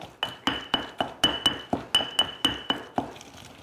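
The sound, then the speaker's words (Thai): Pounding grilled shrimp paste, made from tiny krill, in a mortar: a steady series of many rhythmic pestle strikes, each a sharp, bright clink with a short ringing tail, evenly spaced and alone without talk. “ใส่กะปิที่ย่างแล้วเนี่ยคุณผู้ชมแล้วก็ลองโขลกดูว่ากะปิพอไหม”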